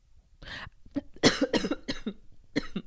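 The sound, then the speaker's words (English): Harsh coughing from someone choking, several loud bursts in an uneven rhythm with short gaps between them, heard on their own without talk. “Sorry, I was choking.”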